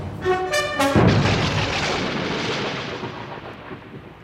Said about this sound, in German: Sehr passend, der Donnerschlag.